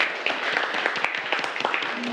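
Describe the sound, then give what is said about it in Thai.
Students in a classroom clap for a classmate who has just answered a question, a dense patter of many hand claps at a steady, moderate level with no pause. “ปรบมือให้กับเพื่อนด้วยครับนักเรียน”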